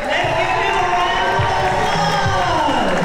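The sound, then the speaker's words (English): Middle school students cheer each other on inside J.H. Phillips Academy in downtown Birmingham at a citywide student showcase. Their loud, continuous crowd noise of shouts and excited voices stays dense for the whole span. “Middle school students cheered each other on inside J.H. Phillips Academy in downtown Birmingham.”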